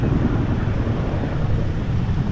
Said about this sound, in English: Inside the park, Army helicopters overhead dip down into a small lake to fill up their large buckets with water that will be spread on critical areas of the fire.